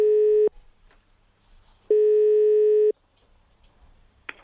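Telephone ringing tone on an outgoing call: two steady mid-pitched beeps, the first cut short and the second about a second long, separated by near silence and followed by a faint click.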